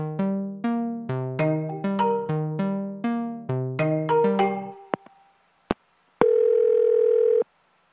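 Telephone tones while a call is placed: a rapid string of many short, bright beeps in varying pitches, a couple of sharp clicks, then one steady, unbroken tone lasting just over a second.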